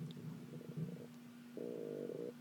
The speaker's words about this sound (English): That's my stomach growling.